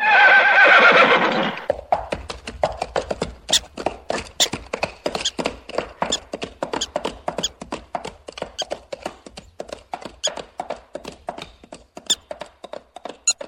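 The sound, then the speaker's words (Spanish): A ridden horse gives a loud, drawn-out neigh on a trail, then its hooves clop in a brisk, regular rhythm. The many sharp hoofbeats continue to the end, alone and without voices. “Don Quijote cabalgaba con su escudero Sancho Panza por el sendero a Puerto Lápice.”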